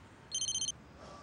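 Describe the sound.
A telephone rings with a call from the caller's father, heard as one short, high electronic trill of rapid pulses, faint and alone against quiet background noise.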